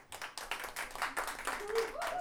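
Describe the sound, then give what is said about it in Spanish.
Audience claps at a Chilean payadores night, an evening of improvised sung verse. The clapping is brief and fairly faint, with a quick patter of hands that holds steady for a couple of seconds. “Vamos, que fue el último, no importa, aplauso. Aplauso.”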